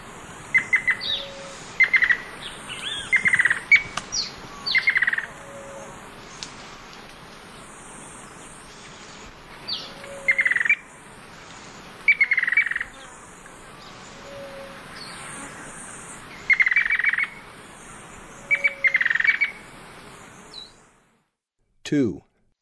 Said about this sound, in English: Black and White Ant Bird.